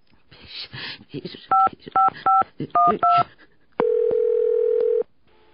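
Touch-tone telephone number being dialed: five short two-pitch beeps in quick succession, followed by one long, steady tone.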